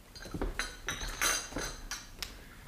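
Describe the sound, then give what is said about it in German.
Glasses and cups are cleared away in a quick, irregular run of many light clinks and knocks of glass and china, fairly quiet throughout. “räum die Gläser weg und die Tassen.”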